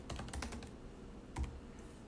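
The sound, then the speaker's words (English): Typing on a computer keyboard: a short run of quick, light clicking keystrokes, then a pause and a second small cluster of taps, fairly faint and with no voices. “Type in the year 2002.”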